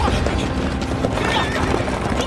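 Carriage horses neigh and their hooves clip-clop in a dense, busy clatter, loud and continuous throughout.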